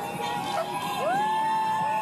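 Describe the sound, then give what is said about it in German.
Triumphant whistling and shouting from hundreds of young women cyclists riding together through dark Bogotá, with shrill sliding whistles rising above a bright, busy crowd roar. “Sie pfeifen und rufen triumphierend.”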